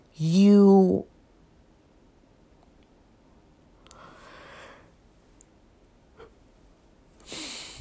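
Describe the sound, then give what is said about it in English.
A loud voiced yawn lasting about a second, with a clear droning tone, followed by near silence broken by faint breathy sounds. “excuse me, y'all, I just yawned”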